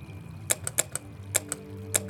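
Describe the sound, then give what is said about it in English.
Button presses on an unresponsive elevator keypad: several sharp, dry clicks in irregular bursts over a low, steady machine hum. “The keypad in the elevator won't respond.”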